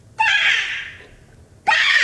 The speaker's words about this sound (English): Stop screaming in her face.